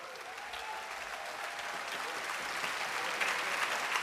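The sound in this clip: Soft audience applause for a band's arranger at a concert, a dense clatter of many hands that grows slightly louder and livelier toward the end.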